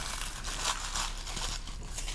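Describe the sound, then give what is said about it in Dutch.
Foil being crinkled and torn while packing apples and vitamin pills, a continuous faint crackling rustle with slight swells throughout. “Ik ga denk ik deze folie ook scheuren.”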